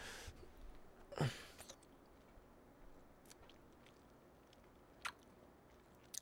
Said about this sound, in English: eat a bug just for my own sake. And I'm actually going to do it right now.